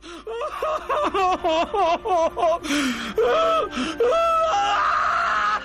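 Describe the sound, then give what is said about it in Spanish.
Inconsolable crying: a quick series of short, rhythmic, high-pitched sobs gives way to longer, drawn-out wailing cries. The sobbing is loud and heard alone. “Y sí, llora a mi amigo sin consuelo.”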